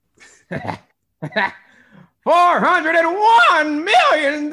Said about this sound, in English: The cough. I love the cough part.